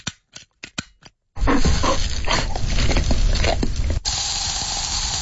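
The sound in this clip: A dog barking in a few short, sharp bursts in quick succession, followed by a loud, sustained hiss of other household noise.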